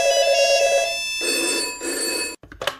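A telephone rings for an incoming call, a loud sustained buzzing electronic ring lasting a little over two seconds, then a brief gap and a few short handling noises as it ends.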